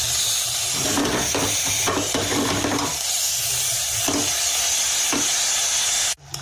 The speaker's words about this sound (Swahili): halafu na koroga. Na koroga na ichanganya vizuri.